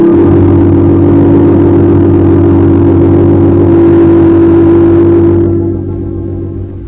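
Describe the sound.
A taxi cab's engine runs with a steady, loud mid-pitched hum and a low droning rumble, then thins and drops in level near the end as the car pulls away.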